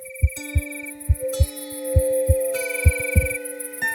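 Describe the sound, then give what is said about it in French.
A heartbeat thumps steadily as low, paired beats in a regular lub-dub rhythm, about four cycles in all. A sustained humming tone and higher electronic notes run underneath it. “Même ton cœur fait du bruit.”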